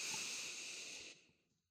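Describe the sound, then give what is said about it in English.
One slow inhale through the nose during a guided breathing exercise: a soft, airy hiss that holds steady for about a second, then tapers away to silence. “Inhale through the nose”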